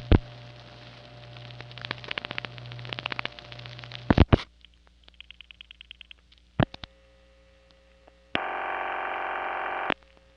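Telephone switching sounds on a New York panel exchange: irregular clicks and relay chatter over a low hum, then a few short tone bursts and finally a steady multi-tone signal that cuts off.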